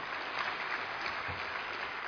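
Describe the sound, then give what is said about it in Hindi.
Applause from an audience at a spiritual talk: a dense, steady wash of many hands clapping at the same loudness for about two seconds, with no voices over it. “ताली बजाइए पहले तो।”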